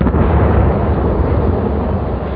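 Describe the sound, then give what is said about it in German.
A ceremonial Böller cannon shot signals the lighting of the Fasnacht bonfires in the village of Wittnau on the Jura ridge. It is a loud, deep, rumbling blast that stays strong throughout, with no voices. “Punkt 8 Uhr zu oben gibt der Böllerschusssignal, dass die Fasnachtsfeuer angezündet werden können.”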